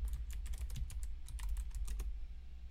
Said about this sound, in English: I'm getting distracted while also typing something out.